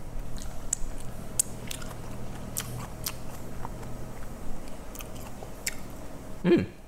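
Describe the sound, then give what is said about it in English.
A piece of seasoned radish is bitten and chewed. Faint, crisp crunches and small wet clicks repeat many times at an uneven pace, ending with a slightly louder bite. “So I'm just gonna taste this piece of radish here.”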